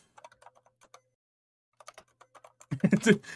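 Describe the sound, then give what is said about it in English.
Typing on a computer keyboard gives two short runs of quick, light taps separated by a pause, then a voice starts speaking over the end. “I just typed is Sal gay? Volcano gay? Yeah, is Sal in Practical Jokes gay?”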